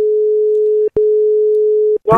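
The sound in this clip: A steady, mid-pitched telephone line tone on a radio phone-in call runs for about a second, breaks briefly, then resumes for another second before a voice cuts in at the end.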